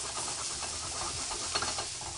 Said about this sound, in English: Now give that a flip. Cook it on the other side.